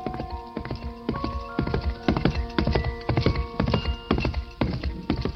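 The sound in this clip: Hooves of a horse carrying a cavalry officer along a road: a steady, continuous clip-clop of many hoofbeats with dull thuds, sustained throughout.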